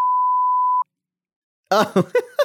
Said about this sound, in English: Just bleep this out.